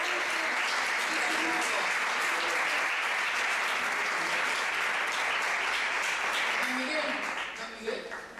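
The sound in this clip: An audience applauds at the closing of a formal event, a thick, continuous roar of clapping with voices mixed in that thins and drops away near the end.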